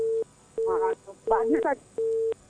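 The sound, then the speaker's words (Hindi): Telephone line tone beeping: four steady mid-pitched beeps at an even rhythm, with a voice talking between and over them. “ये phone की बहुत आवाज आ रही है, ये टूटू टूटू की बहुत आवाज आ रही है”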